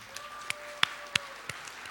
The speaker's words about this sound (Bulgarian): Преди да продължим, искам първо да чуя вашите аплодисменти за Светослав Николов, който направи невъзможното, за да се случи това нещо.